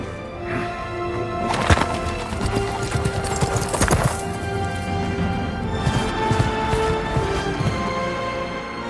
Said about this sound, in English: I crack up at Gandalf and Shadowfax nearly running over Legolas and Gimli on their way out of the stable.